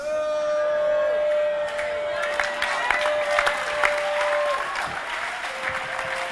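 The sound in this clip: An audience claps through a church sermon, a dense, steady wash of hands that carries on at an even level for the whole stretch.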